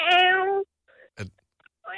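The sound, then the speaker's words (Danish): A human voice imitating a kitten's meow in an animal-sound guessing game, giving two drawn-out, high mewing calls with a brief noisy burst between them. The second call is cut off at the end. “Ikke en kat, er det? En lille katkilling. En killing.”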